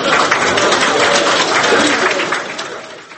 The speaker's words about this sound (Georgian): პირველი ტურით კმაყოფილი დარჩა იულია ტიმოშენკოს საარჩევნო შტაბი, სადაც წინასწარი მონაცემების გამოქვეყნებას მკუხარე აპლოდისმენტები მოჰყვა.